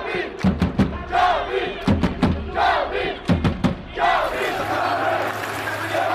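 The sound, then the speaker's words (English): Esports fans of Karmine Corp roaring in the arena at the Esports World Cup, with loud rhythmic chanting and sharp thumps for about four seconds before it merges into a sustained, dense roar. “I wasn't joking when I said the noise in here was like a football match. Just to listen to that atmosphere.”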